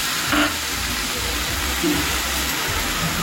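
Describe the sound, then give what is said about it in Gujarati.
Two finely chopped tomatoes go into a hot pan and sizzle, a dense, loud, steady hiss that carries on throughout with little change. “ત્યારબાદ આપણે ઝીણા સમારેલા બે ટામેટા નાખીશું,”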